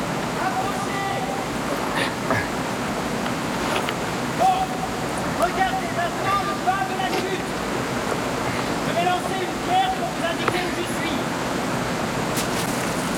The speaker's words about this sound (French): Ici, derrière la chute d'eau! Derrière la chute d'eau? Comment derrière la chute d'eau?